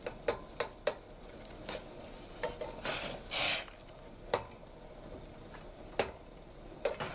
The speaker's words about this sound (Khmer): យើងប្រើម្ទេសក្រៀមជំនួសវិញយើងកូរម្ទេសក្រៀមនេះឲ្យវាបែក